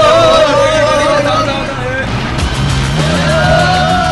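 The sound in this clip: Motorbike engines run steadily as several riders set off together, a continuous droning whine that wavers up and down in pitch, with people talking in the background.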